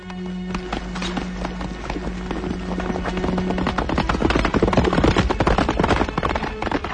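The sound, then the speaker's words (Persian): A horse galloping with a rider aboard: rapid, rhythmic hoofbeats in a steady stream of sharp thuds that grow louder and denser toward the end, with no talk. “عبدالله سوار بر اسب به تاخت می رود”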